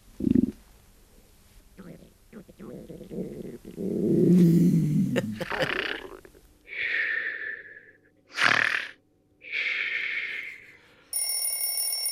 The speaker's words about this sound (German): Magenknurren, Schnarchen und Wecker. Die verrücktesten Körpergeräusche.